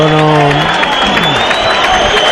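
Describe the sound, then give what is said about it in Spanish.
Bullring crowd applauding the bullfighter Escribano, a loud continuous wash of clapping and cheering, with brief voices audible at the start. “Hay aplauso para Escribano. Para esto están los aplausos, para premiar la voluntad, las ganas.”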